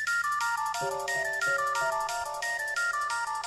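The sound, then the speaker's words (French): An electronic phone ringtone signals an incoming call, repeating a short melodic phrase of stepping beeped notes. It stays loud and steady throughout, with no talk. “Vu que je suis omniscient, hein, tu vas recevoir un coup de fil.”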